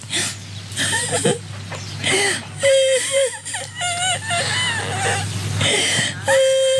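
An elderly woman cries on Indonesian Independence Day while watching the red-and-white flag wave, with wavering, whimpering sobs and drawn-out wailing moans that rise and break steadily throughout.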